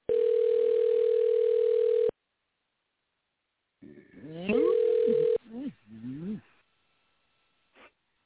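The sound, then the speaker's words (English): A telephone tone sounds on the line while a call is being dialled: a steady, loud, even tone lasting about two seconds, then silence. People then talk, and a shorter tone sounds beneath their voices. “Now I'm dialing him now. And it's taking a while for him to pick the damn phone up.”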